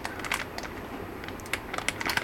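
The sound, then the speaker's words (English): Kohl's garlic bread is unwrapped from a long plastic bag, giving faint, irregular crinkling and crackling with scattered sharp little clicks as the plastic is handled and opened. “I'm going to unwrap the garlic bread, or open it, I should say.”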